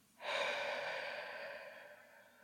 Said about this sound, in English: let's all just take a long breath in and out. So breathing in and breathing out.